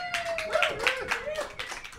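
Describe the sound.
A small studio audience claps in quick, irregular bursts while a voice talks over the sharp hand strikes.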